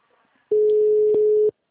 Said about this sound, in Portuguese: Eu que tô ligando, amor. Tô ligando pra minha mãe.